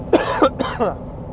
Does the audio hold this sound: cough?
yes